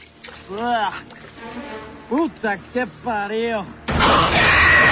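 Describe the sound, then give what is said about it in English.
A man falls back into water: strained vocal cries and groans come first, then one loud, sustained splash of churning water near the end. “Mateo loses his footing and falls back into the water. Mateo surfaces and wipes his face.”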